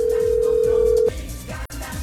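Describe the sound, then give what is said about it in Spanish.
A telephone line tone as a call is being dialed, heard as one steady mid-pitched tone for about a second over loud background music, which carries on after the tone cuts off. “Ahí está marcando.”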